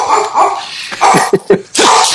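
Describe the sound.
A dog barks a few loud, sharp times in quick succession, with brief yelping, whimpering notes between the barks.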